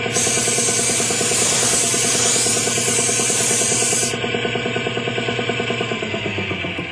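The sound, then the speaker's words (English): Loud, steady hiss of spray paint being applied to a car part, likely a bolt, by a worker in a respirator, running continuously for about four seconds before cutting off abruptly. “Give it another shot of paint over here”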